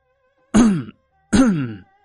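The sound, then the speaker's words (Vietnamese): Two deliberate fake coughs, each a short voiced 'ahem'-like burst about half a second long, separated by a brief pause and heard alone. “Từ phía sau vang lên hai tiếng ho giả.”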